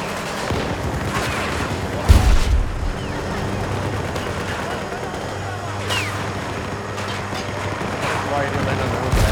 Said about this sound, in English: They are snipers with that M5. Yeah, they are. But I'm a sniper with the M60.